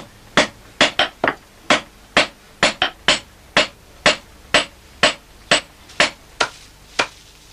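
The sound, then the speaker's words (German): Hammer striking: many sharp, bright blows land in a quick, uneven rhythm, each hit clear and distinct with a short ring. “Seit die Menschen die Eisenverarbeitung beherrschen, gibt es den Hammer.”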